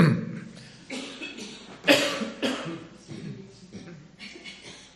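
Several coughs and throat-rattling sounds come in uneven bursts of different strength, fairly quiet overall, with one sharper, louder cough near the middle.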